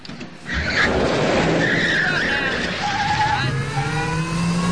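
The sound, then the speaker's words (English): Tyres screech and skid as a car reverses at high speed in a straight line from a grocery store toward a petrol station. A loud engine roar rises in pitch under the long squeal. “Louise reverses the car at high speed away from the grocery store and in a straight line, right the way over to a petrol station.”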